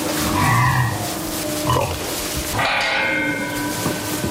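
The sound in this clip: Young woolly pigs of a rare, hardy heritage breed grunting in a farm stall, a few rough grunts over a steady noisy background that runs throughout.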